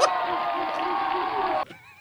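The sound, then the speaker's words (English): A live audience at a show cheers and yells in unison, a loud sustained chorus of shouting voices that cuts off abruptly after about a second and a half, leaving a single fainter voice. “They were going nuts. God, I love that. The audience was going nuts.”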